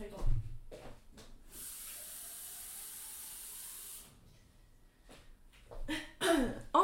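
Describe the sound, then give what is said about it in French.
Water is poured into a glass as a steady hissing splash lasting a few seconds. A woman's voice is heard before and after the pour. “je reprends de l'eau. Ah merde, il n'y en a plus. Attendez, hop, je vais me remplir un petit peu.”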